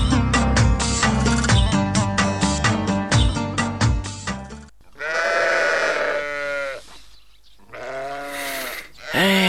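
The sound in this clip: Sheep bleat while grazing in the mountains: two long, wavering, nasal cries come after a dense rhythmic opening passage, loud and clear, with a short gap between them.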